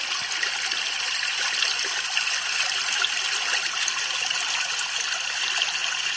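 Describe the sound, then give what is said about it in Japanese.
Water rushes in a steady, unbroken wash of hissy, bright noise at an even loudness, with no voices or other sounds on top. “あ、これはだけど、水の音ですね。”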